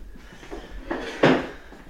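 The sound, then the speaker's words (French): A heavy door is pushed shut, a brief rising movement sound followed by one solid, dull thud that fades quickly. “Attendez, je vais même fermer la porte parce que... Voilà. Ah, c'est lourd.”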